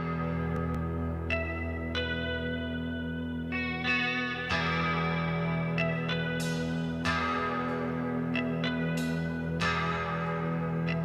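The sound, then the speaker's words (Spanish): Electric guitar drenched in heavy reverb with a shimmering chorus-like effect rings out many picked notes and chords, each blooming and decaying, over a steady keyboard pad sustained in the background. “Me parece, para mí es una guitarra con muchísima reverb. Es guitarra, es guitarra. Eh, suena tan como. Pero, pero ese chan que suena de fondo es teclado.”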